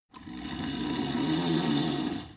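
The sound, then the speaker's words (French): Someone snoring: one long, rough, rattling breath, loud and steady for about two seconds, heard alone. “Quelqu'un qui ronfle.”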